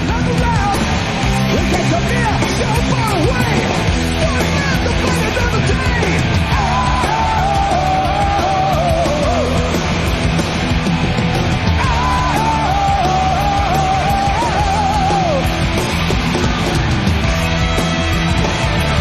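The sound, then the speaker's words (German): A concert crowd screams and yells wildly in a loud, dense, continuous roar. Individual shouted voices rise and fall in pitch above the mass of the crowd. “Aber da hörst du halt einfach, wie die Leute ausflippen.”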